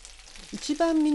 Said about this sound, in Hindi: Fry pan को किसी ढक्कन से ढाँप दीजिए ताकि गोश्त अच्छी तरह से गल जाए। धीमी आंच पर मजीद 4 मिनट पकाइए।